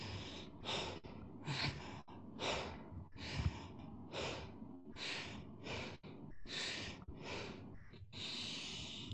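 A person demonstrates rapid stressed breathing, drawing each breath in faster than it goes out, producing many quick, breathy, hissing inhales and exhales in a steady rhythm at low volume.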